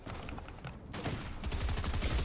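Gunfire in the video game Zone Wars: dense, rapid bursts of shots in a near-continuous barrage, with a brief lull before heavier, thumping fire resumes.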